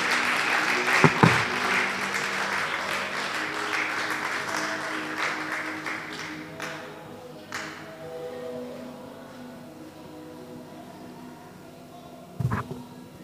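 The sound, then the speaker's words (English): A church audience applauds to welcome a preacher back to the pulpit during a service: dense, sustained clapping that is loudest at first and gradually thins and fades, with a sharp thump near the start and another near the end. “Put your hands together as we welcome God's servant back.”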